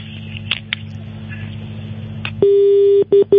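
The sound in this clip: A telephone disconnect tone follows a call: faint line hiss gives way to a steady, mid-pitched beep lasting about half a second, then two short pulses of the same tone.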